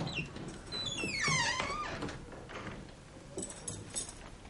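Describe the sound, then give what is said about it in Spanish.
A room door creaks open, its hinge giving a squeaky, whining creak that falls in pitch, followed by softer shuffling and knocking noises. “Abre la puerta de una habitación.”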